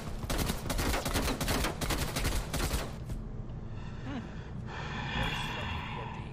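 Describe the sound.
Video game gunfire, dense rapid bursts of automatic fire that run loud for about three seconds, then stop and leave a quieter background.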